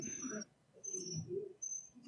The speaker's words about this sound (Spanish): Ey, pero no haber que pagarle el grillo, que ya participó más que el sensei aquí.